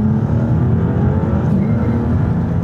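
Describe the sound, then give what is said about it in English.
A turbocharged car engine accelerates hard, giving a loud, dense, low roar with a steady drone throughout and no voices. “Oh, nice turbo. Yeah. Yeah, lots of noise.”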